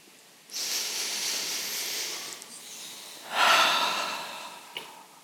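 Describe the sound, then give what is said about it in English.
An audience takes a deep breath together: a long, airy collective inhale of about two seconds, a brief pause, then a louder hissing exhale that fades out. “Take a deep breath for me.”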